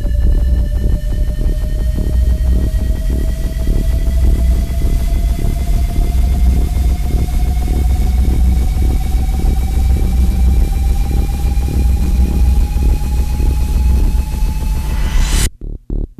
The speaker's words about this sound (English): activating jump drive.